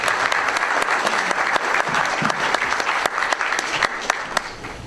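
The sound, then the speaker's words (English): A university audience gives steady applause to welcome a lecturer on cities and landscape. Dense, even clapping continues without a break for about five seconds. “I hope you'll give him a welcome.”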